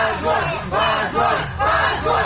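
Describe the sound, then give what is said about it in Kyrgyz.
Supporters at a court hearing shout 'shame' in Kyrgyz at the verdict, with a crowd of voices chanting loudly in repeated rhythmic bursts. “Алардын жараянга келген тарапкерлери муну уят деген кыйкырык менен кабыл алышты.”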